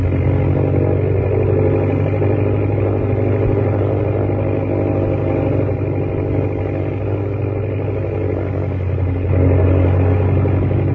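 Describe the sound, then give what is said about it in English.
A small airplane's engine drones steadily as the plane flies low through a narrow rocky gorge, throttled down to glide. The roar is loud and continuous, swelling slightly near the end, with no voices. “Now you're headed right. Throttle down, glide in. Gorge is so narrow, it's like flying down Wall Street.”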